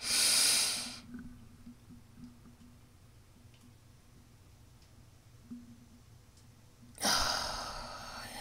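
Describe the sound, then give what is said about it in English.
A deep breath drawn in and released: two loud, airy rushes of breath noise, one at the start and one at the end, with a long quiet pause between them. “Take a deep breath and release. 2. Take a deeper breath.”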